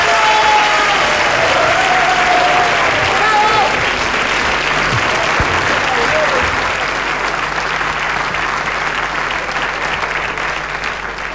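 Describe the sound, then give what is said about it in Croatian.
A crowd at the Porin music awards night greets a songwriter with sustained applause. The clapping is a loud, dense roar that holds steady for about eleven seconds and eases slightly toward the end. “ja bi vas molio jednim aplauzom da ga pozdravite”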